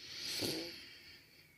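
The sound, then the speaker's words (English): A deep breath in taken during a guided relaxation exercise: one soft, airy inhalation that swells to a peak early on and then tapers away, quiet and alone. “so I would just like us to take a deep breath in together here”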